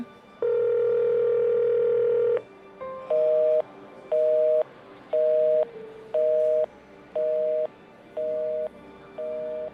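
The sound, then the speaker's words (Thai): Unanswered telephone call: a long steady tone, then a series of evenly spaced short beeps repeating at a regular rhythm. “แอบไปโทรหาป้าสักแป๊บหนึ่งดีกว่า ทำไมป้าไม่รับสายสักทีเนี่ย”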